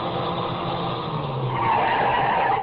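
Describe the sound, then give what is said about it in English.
A car skids to a stop on a rough road, a continuous harsh roar of tires that grows louder in its second half before cutting off, with no voices. “I heard the whine of a car coming over the rise in the rough road as the first glimmer of the headlights stabbed the darkness.”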